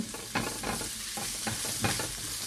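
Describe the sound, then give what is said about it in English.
Ingredients with ground turmeric sizzle in a pan while being stirred constantly. A steady frying hiss runs throughout, broken by several short scraping stir strokes. “So I'm just going to continue moving everything around that pan. Never stop moving.”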